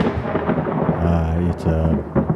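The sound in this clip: Rain falling outside: a steady, dense hiss with low rumbling underneath, continuous and fairly loud for the whole stretch.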